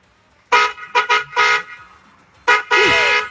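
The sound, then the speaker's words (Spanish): A car horn honks in a string of loud blasts, several short toots in an uneven rhythm, then a pause and two more blasts, the last one held longer. “Mandó 40 segundos de nota de voz, echando pito.”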